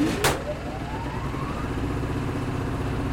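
A choked generator engine catches and starts running: a sharp burst at the start, then a steady low mechanical rumble, with a whine that climbs in pitch over the first second and a half.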